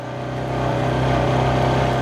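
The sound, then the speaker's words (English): Steady engine drone of a four-wheeler ATV driving fairly fast with a passenger riding in the back, near an Inupiaq village; a continuous mid-pitched hum that swells slightly and then holds, with no talk. “I bump along in the back of a four-wheeler”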